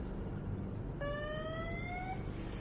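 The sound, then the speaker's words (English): A police motorcycle siren sounds behind a luxury SUV on city streets in Bogota: one sustained, fairly faint electronic tone that rises slightly in pitch over about a second, set over a steady background rumble. “A bike cop pulls behind them.”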